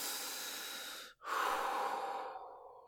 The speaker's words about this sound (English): Deep breaths. Deep breaths. Do it with me. In and out. In and out.